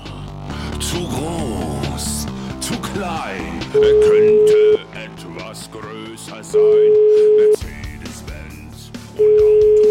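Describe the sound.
Telephone ringback tones from an outgoing call, three steady mid-pitched tones of about a second each, evenly spaced with pauses between them, standing out loudly over continuous background sound.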